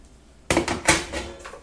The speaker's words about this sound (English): And so when you open it, it has a basket.